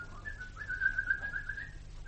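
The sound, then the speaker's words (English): A person whistles a bird impression in a hall with an echo off the wall, imitating birdsong. The single whistled note is faint and sustained, wavering and warbling slightly, and no talk accompanies it. “Lovely echo on the wall. Great place to do bird impressions.”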